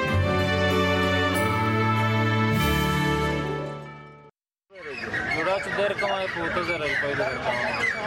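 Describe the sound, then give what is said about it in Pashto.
Chickens and caged birds at a Friday-morning bird-selling market in Khushal, where people carry birds in cages: after a brief silence, a dense burst of overlapping chirps, clucks and calls continues steadily. “دا په خوشحال کې د مرغانو د خرڅلاو مارکیټ دی. د هر جمعې په ورځ لغرمې مخ کې د غلطه د مرغانو د خرڅلاو میله لګیږي.”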